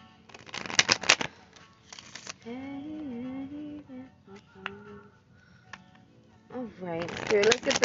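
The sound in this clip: Playing cards are shuffled for a card reading in short bursts of crisp riffling, one near the start, one brief one after it and a longer one at the end. A voice talks between them.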